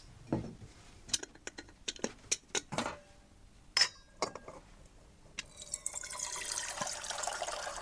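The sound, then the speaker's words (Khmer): Water boiling in a cooking pot for soup, beginning with scattered drips and small pops, then settling into a steady, soft bubbling hiss for the last few seconds, quiet and with no talk. “ឥឡូវនេះដល់ពេលដែលទឹកយើងបានពុះបាទនៅពេលដែលទឹកយើងបានពុះ”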